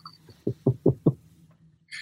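A gavel strikes four sharp, hollow wooden knocks in quick, even succession, each clipped and resonant, followed by near silence and a faint rustle at the end.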